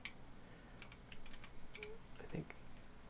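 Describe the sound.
Computer keyboard keys tapped while a password is typed: a run of light, irregular clicks, some in quick pairs, over a low steady hum.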